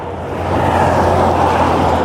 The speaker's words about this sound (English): Okay, I'm at the end of the street. You can probably hear the traffic now.